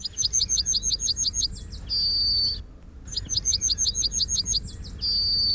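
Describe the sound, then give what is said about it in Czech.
A British yellowhammer sings two songs, each a rapid string of short, bright, high chirps ending in a sustained drawn-out note, with a brief pause between the phrases. “protože jsem si říkal, že bychom mohli opustit hranice naší republiky a podíváme se do Británie, jak zpívá britský strnad.”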